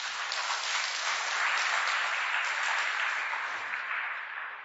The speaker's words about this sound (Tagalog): Palakpakan natin ang Panginoon, mga kapatid.